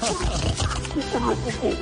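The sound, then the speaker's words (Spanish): A wild boar grunts and snorts in rough, low, throaty bursts that run almost continuously and rise and fall in loudness. “Uy, pero se metió ahí con un jabalí.”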